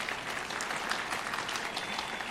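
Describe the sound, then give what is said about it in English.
Audience applause at a feast-day gathering, given for speakers: dense, steady clapping from many hands that holds at an even level throughout, with no voices standing out. “Let's give them a round of applause because they were excellent.”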